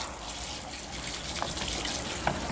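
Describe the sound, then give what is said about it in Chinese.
Running water from a shower: a steady, dense hiss of pouring water at even loudness, with a couple of faint spatters and no voices. “什么？我听不清，我洗澡呢。”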